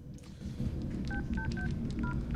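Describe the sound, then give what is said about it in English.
Mobile phone keypad tones as a woman dials in an empty locker room: several short two-note beeps in an uneven sequence over a steady low rumble of background noise. “She looks around, then takes a mobile phone out of her pocket and dials.”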